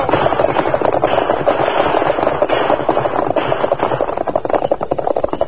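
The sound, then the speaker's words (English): Many rapid gunshots crackle in a dense, unbroken burst. The volume stays loud throughout, with no clear gaps between the shots. “Bullets not come close. And lucky you not use gun. There was no need to return their fire, Tonto.”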